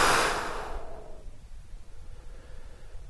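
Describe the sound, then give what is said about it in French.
A forceful exhale released after a held breath during a breathing exercise with tensed arms: a loud, breathy rush of air at the start that fades over about a second into faint, steady noise. “on bloque la respiration, sur le blocage de la respiration, on contracte les bras, on met tout ce qu'il y a de négatif dans la contraction, on charge au maximum, et on expire en dégageant ce négatif.”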